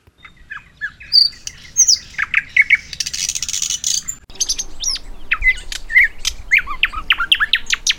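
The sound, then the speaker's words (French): Nightingale song recorded in Tanzania: a dense, continuous stream of high, sharp chirps, whistles and quick trills, with bright, crackling phrases following one another rapidly throughout. “peut-être qu'on peut écouter un petit peu à quoi ressemble le chant du rossignol enregistré en Tanzanie.”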